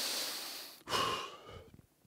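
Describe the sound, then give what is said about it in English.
A person takes a deep breath, heard as two long, airy, quiet breath sounds separated by a short pause, followed by a few faint soft clicks. “Take a breath.”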